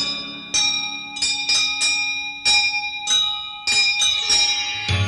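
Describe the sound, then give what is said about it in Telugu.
Temple bells ring in a steady rhythm. Several bright, metallic strikes sound one after another, and each rings out and overlaps the next with sustained tones. “నీ గుడి గంటలు లయతో మ్రోగా”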